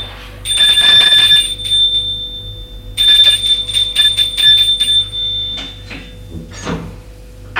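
An electric doorbell ringing at a small furnished apartment: two long, shrill, rattling metallic rings separated by a short pause, heard without speech.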